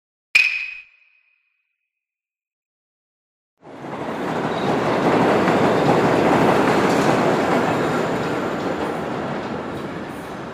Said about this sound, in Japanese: すみません。これは新宿へ行きますか？ 行きません。これは回送電車です。